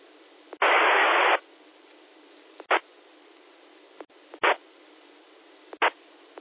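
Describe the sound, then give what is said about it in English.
Static bursts from a 2-meter amateur radio net as a weak station barely breaks the squelch: one longer hiss, then a few short, clipped bursts of noise with faint clicks between them, all fairly quiet. “it sounds like there's a station that's trying to make it in, but you're barely breaking the squelch.”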